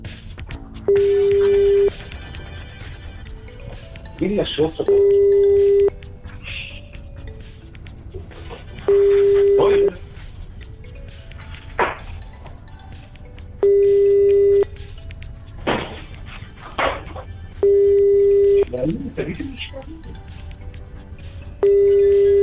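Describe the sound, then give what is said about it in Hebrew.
Ringing of an outgoing telephone call: six steady mid-pitched ringback tones, each about a second long, recurring roughly every four seconds, with faint scattered clicks between them. “טוב, בוא נתקשר אליו.”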